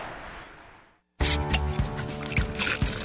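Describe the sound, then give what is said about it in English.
Samuel Adams Alpine Spring, a pils brewed with honey malt and Tettnang hops, pours with a soft, fizzing hiss that fades over about a second, then a brief silence before a much louder, dense sound cuts in. “That's the sound of our spring beer, Samuel Adams Alpine Spring.”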